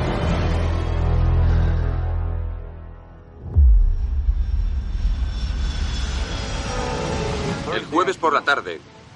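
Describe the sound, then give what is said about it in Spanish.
The presidential jet, Air Force One, taking off from San Antonio: a loud low engine drone and roar that shifts partway through into a rougher, steadier rumble, with a voice briefly heard near the end. “avión presidencial, el Air Force One, despegaba desde San Antonio y aterrizaba en Houston.”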